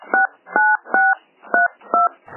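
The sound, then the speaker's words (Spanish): Telephone dialing tones as a phone call is placed: five short, evenly spaced two-tone keypad beeps separated by brief gaps, clear and steady in pitch, with no talking. “Llamo a Ana Freisas.”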